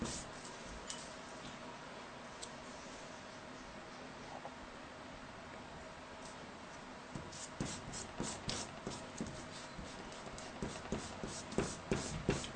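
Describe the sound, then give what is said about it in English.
Faint rubbing of a kneaded eraser on a drawing: a soft, steady papery scuffing at first, building later into many quick, rhythmic strokes. “I'd call this kneaded eraser pretty much an essential drawing tool.”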